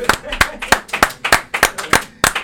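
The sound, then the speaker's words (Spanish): Live, genuine hand clapping rather than canned applause: a slow, fairly even series of sharp, separate claps, loud and distinct, with short gaps between them. “Ahora con aplausos de verdad.”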